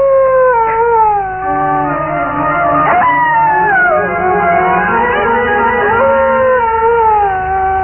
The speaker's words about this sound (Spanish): un perro solitario aullaba en los páramos